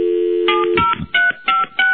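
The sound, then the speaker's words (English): Cell phone keypad tones dialing in to retrieve voicemail messages: a steady dial tone, then a few short, evenly spaced beeps of varying pitch, clear and alone. “let me see if I can do this. See if we can bring up the messages with Gary”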